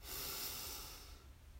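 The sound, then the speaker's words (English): A single long, deep breath during a guided breathing exercise, a breathy rush that starts loud and steady, then gradually fades and thins out toward the end, with no talking. “So let's breathe in and out.”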